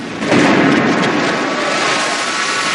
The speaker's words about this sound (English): But there's a flash of white light and he explodes, leaving behind a charred remnant of his former self.